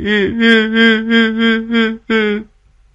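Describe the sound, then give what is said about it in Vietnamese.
A person bursts into tears in a village after a buffalo goes missing, a run of rhythmic, steady-pitched sobbing wails followed by one last cry that breaks off into silence. “Nói xong, Tý òa lên khóc.”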